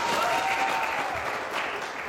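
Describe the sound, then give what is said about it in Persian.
Steady applause from people at a family birthday celebration. The clapping is even and fairly faint, and it sustains throughout without pauses. “دست بزنید”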